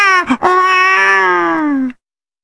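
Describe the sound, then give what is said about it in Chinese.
A storyteller's voice imitating a loud child's crying. After two short catches comes one bright, sustained wail that holds for about a second and a half, its pitch sagging slightly before it cuts off abruptly. “就听这山里头啊，有小孩的啼哭之声，这个声音是十分的洪亮啊。”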